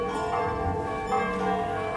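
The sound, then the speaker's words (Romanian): Church bells of Rome's basilicas ring at dusk. Several bells blend into a dense, steady, ringing wash of overlapping tones that keeps an even level throughout. “cum dialoghează bazilicele Romei prin glasul clopotelor, salutând lăsarea serii.”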